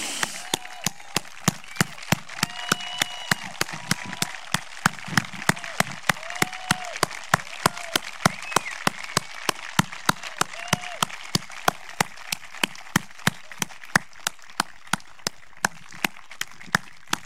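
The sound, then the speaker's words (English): Rhythmic audience clapping at a community event honoring local law enforcement officers: sharp, steady claps in regular time for the whole stretch, with voices in the background. “And I just want to give them a round of applause. On your feet, people.”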